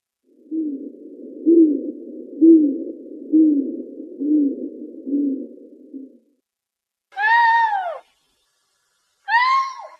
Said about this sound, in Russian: Бородатая неясыть.